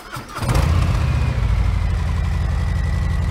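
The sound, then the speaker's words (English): A stock Harley-Davidson motorcycle with a Milwaukee engine fires up after a brief crank and settles into a loud, deep, rapid, tight-pulsed idle that stays steady to the end, with no voices. “Quite a bit different tone from the twin cam. Decibel levels very similar, but you can hear that Milwaukee H just sounds tighter, the repetitions of the motor are closer together, and it just offers a very unique sound”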